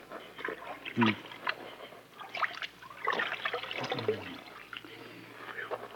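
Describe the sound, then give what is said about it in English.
Soft wet splashing and trickling as water is dabbed onto a bullet wound in a man's chest, with a few brief louder liquid bursts over a low, steady background. “Let me wash his wound, take a look at it. I'll wet this scar.”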